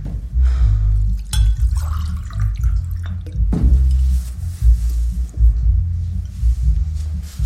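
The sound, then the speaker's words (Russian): Liquid poured from a bottle into a glass: continuous trickling and splashing over a low, throbbing rumble, with a sharp knock near the middle. “наливает себе что-то в стакан из бутылки”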